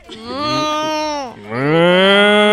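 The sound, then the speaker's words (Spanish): A loud, cow-like moo in two long, drawn-out calls separated by a brief break, the first sagging in pitch as it fades and the second starting low and then rising and holding steady. “Hizo como una vaca.”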